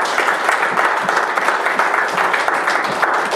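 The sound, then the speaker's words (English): Audience applause during a sermon, a dense, steady wash of many hands clapping that stays loud and even for about three seconds. “Give the Lord a hand of applause.”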